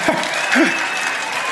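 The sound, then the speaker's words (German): Brief applause from an audience: steady, dense clapping at moderate loudness that lasts only a moment. “Weißt du, wann der größere Applaus kommt? Wenn man sagt, wir sind im Finale Österreich gegen Deutschland, da kommt der größere Applaus.”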